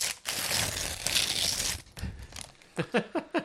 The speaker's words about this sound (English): Okay, so I have the envelope. I'm going to open it now.